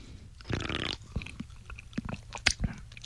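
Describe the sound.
Someone eating clam (shijimi) miso soup makes quiet sipping and chewing sounds: a few soft slurps and small crunchy clicks in irregular bursts.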